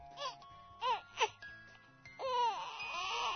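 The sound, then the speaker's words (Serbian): A baby crying, starting with a few short, faint whimpering wails that rise and fall in pitch, then swelling into a louder, sustained cry. “Eto, čuje se. Tiho, pa sve jače. Plače. Plače dete”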